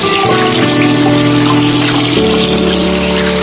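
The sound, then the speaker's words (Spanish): Water running from a tap for hand washing, a loud, steady gush that continues throughout, with a faint tonal hum beneath it. “Hola, ¿ya te lavaste las manos?”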